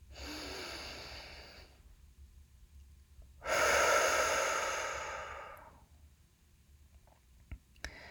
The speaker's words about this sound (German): Und dann atme hier nochmal tief ein und aus.